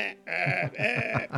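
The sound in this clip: A person imitates a sheep's bleat with a wavering, voiced 'baa' that pulses rapidly through most of its length. The sound is fairly loud and rises again in a couple of short swells near the end.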